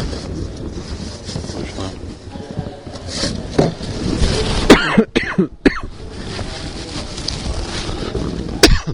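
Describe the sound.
A person coughs and clears their throat with something stuck in it: a few loud, harsh coughs and throat-clearing rasps stand out over a steady, windy background rumble.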